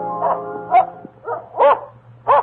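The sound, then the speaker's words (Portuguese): A dog barks furiously, five loud, sharp barks in an uneven rhythm with no talk over them. “quando seu fiel cão se pôs a ladrar furiosamente.”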